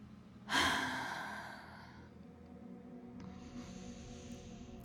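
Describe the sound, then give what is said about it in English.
A deep breath during a guided relaxation exercise: one sharp, airy inhale swells quickly, then tapers over about a second and a half, followed by a faint, thin hiss. No one speaks. “Breathe in. Breathe out.”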